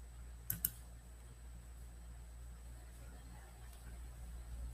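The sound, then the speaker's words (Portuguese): Two quick computer mouse clicks near the start, sharp and soft, followed by a steady low hum with no talk. “Tô clicando, não tá abrindo.”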